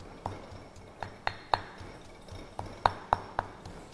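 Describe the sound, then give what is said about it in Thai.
Yellow curry paste for sai ua sausage is pounded finely in a mortar with sharp, ringing pestle strikes. They fall at a steady rhythm in two short runs of four, with a pause between. “มีสีเหลืองสวยงามนะคะเครื่องแกงนะคะเราก็จะต้องตำให้ละเอียดไปเลยนะคะโขกให้ละเอียดนะคะ”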